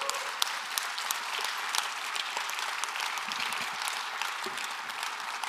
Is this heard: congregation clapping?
yes